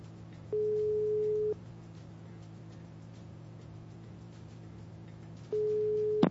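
Telephone ringback tone on an outgoing call: two long, steady single-pitch beeps, each about a second long, separated by a pause of roughly four seconds filled with faint line hiss.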